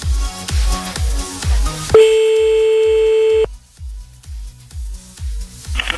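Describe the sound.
An outgoing telephone call ringing: a single steady tone about one and a half seconds long, heard over a rhythmic music beat that plays before and after it.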